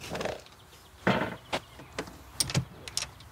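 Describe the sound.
A wooden door of a rented cabin is unlatched and opened, making a few faint clicks and knocks spread over a few seconds. No one speaks.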